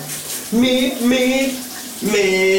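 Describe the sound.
Shower water running at home, a steady hiss under a man singing in the shower, his voice holding a few sustained notes over the flow.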